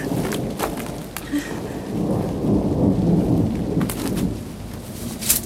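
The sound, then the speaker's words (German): A heavy thunderstorm over an island, with steady rain hissing throughout and thunder rolling in low, loud rumbles that swell in the middle. A sharp crack or thud comes near the end. “Und dann kam das Gewitter. Ein Gewitter, wie ich es noch nicht erlebt hatte.”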